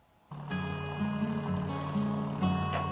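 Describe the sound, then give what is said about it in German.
A fishing boat casts off from a small fishing harbour in Boston, England, at low tide, heading out for mussels. After a short quiet moment its engine starts abruptly and keeps up a steady, droning hum with layered tones. “Vielleicht ist es ja nur die Ebbe, aber es liegt etwas Melancholisches über der kleinen Fischerflotte von Boston. Nur die Kelly macht noch die Leinen los, raus aufs Meer, um noch eine Fuhre Muscheln abzufischen.”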